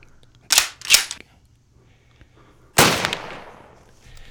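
Repeater rifle gunshots: two sharp cracks in quick succession, then after a pause a louder blast with a lingering, fading tail.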